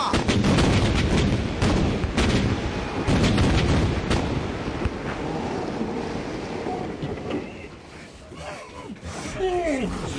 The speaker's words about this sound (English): Point your guns! Fire as they bear! At last. On the roll, boys! On the roll! And fire!